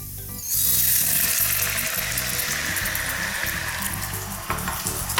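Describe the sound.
Mushroom soaking water hits a hot pan with a sudden loud sizzle after a brief quiet start. A broad steady hiss over low bubbling follows and eases only slightly toward the end.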